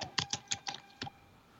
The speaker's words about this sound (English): I'm going to type this into the computer because I have no idea.